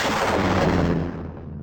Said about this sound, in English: Launch probe three. Bombs away.